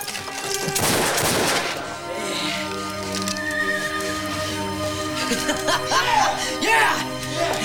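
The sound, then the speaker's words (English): Gunshots fired out of a window in a film, several sharp cracks and bursts of gunfire that come early and again near the end, mixed with voices. “With guns in both hands, Billy takes some shots out of the window.”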